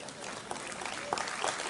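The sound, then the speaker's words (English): A church audience clapping, a soft, fairly even patter of hands that swells slightly toward the end, with a few sharper claps poking through. “Yeah, we can clap to that.”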